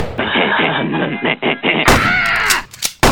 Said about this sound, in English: Johnny Mathis shot and killed both of them.